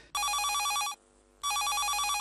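A telephone rings in two bursts of bright, trilling electronic tone separated by a short pause. The ringing is loud and steady, with no voices.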